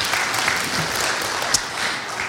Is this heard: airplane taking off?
no